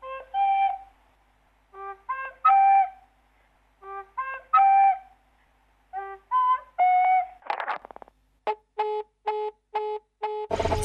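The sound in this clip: A whistle is blown in short tonal toots, grouped into a repeating melodic phrase. Near the end come quicker, evenly spaced blasts, loud against an otherwise silent background.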